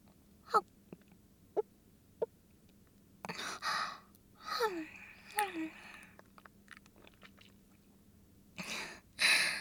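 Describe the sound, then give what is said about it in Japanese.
Someone eats chewy food, with a few sharp mouth clicks first and then soft, wet chewing bursts and breathy exhales, all faint and with no talking. “いただきまーす。あ、もちっとしてる。”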